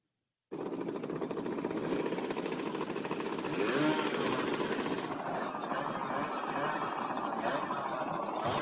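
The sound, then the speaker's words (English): Several motorcycle engines roar together in a loud, continuous, gritty drone with no pauses, swelling briefly about halfway through before settling back to a steady level. “You got a bunch of bikes out there. I feel like listening to a bunch of motorcycles.”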